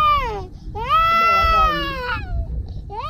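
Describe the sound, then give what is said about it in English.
A baby wails while a village healer forcibly pulls four of its teeth with a sharpened nail. The loud, high, strained cries come in long wavering bursts with a short break, over rough low background noise. “The so-called village doctor, using a sharpened nail, forcefully removes 4 teeth from the wailing baby.”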